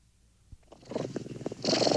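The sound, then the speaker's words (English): Cat or kitten purring, a soft rough rumbling that starts faint and grows louder over two seconds. “Cat purring. Kitten purring.”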